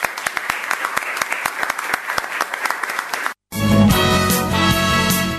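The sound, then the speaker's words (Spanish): An audience applauds with dense, steady clapping at an even loudness. It cuts off abruptly and music follows. “así que ella se merece un aplauso.”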